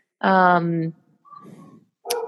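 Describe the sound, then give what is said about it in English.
Dogs barking loudly: one strong, tonal bark-like cry comes first, then fainter, rougher sounds after a short gap, and a brief sharp yelp at the end. “I don't know if you can hear my dogs barking. I apologize. They are being really loud.”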